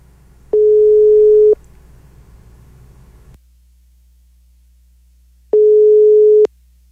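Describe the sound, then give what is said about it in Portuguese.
Ringback tones sound on a telephone line during a call attempt: two steady, mid-pitched electronic tones, each about a second long and several seconds apart, with a low line hum and faint noise between them. “Mais uma tentativa, tá chamando.”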